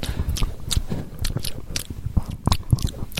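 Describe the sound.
A voice imitates crunching communion wafers in ASMR-style mouth sounds: many crisp bites and chewing crunches with wet squishes, close-up and continuous, with no talk.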